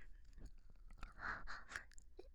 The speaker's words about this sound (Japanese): こちらも舐めさせていただきます。